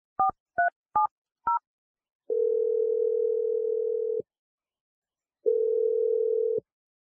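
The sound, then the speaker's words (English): Telephone tones as a number is called: four short, clipped keypad dialing beeps, then two long, steady, mid-pitched ringing tones separated by a pause of silence. “we're going to dial her number right now”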